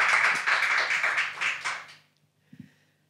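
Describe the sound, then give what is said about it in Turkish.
A group of people claps in applause, a dense, lively burst lasting about two seconds that fades out. A couple of faint taps follow, and no voices are heard. “Burada gerçekten alkış var.”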